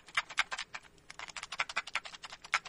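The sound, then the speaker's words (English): A cheap blank Capitol Records cassette tape rattles as it is shaken, giving quick bursts of small plastic clicks in an uneven rhythm. “Is that the cheap tape or the good tape? Well, because there's more rattle in that one, it sounded like the cheaper tape. Ding, ding, ding, ding. Correct. It is the cheap tape. This is a tape. This is a blank tape actually put out by Capitol Records.”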